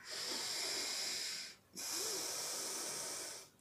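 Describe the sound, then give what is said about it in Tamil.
Deep pranayama breathing, with slow deliberate drawing in and letting out of air. Two long, airy hissing breaths through the nose are separated by a short pause, each steady and fairly quiet, with no talk. “பிராணாயாமான்றது மூச்சை உள்ளே வாங்கி மூச்சை விடுறது இப்படி பாருங்கள்”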